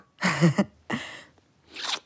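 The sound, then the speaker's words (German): Crunching of popcorn being eaten, three separate crisp, loud chewing bursts with short silent gaps between them and no voices. “Lecker, Popcorn.”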